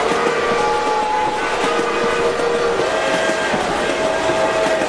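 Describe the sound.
Loud, constant noise inside a locomotive: a dense, steady rumble with sustained high whistle-like tones that shift pitch now and then, with no voices.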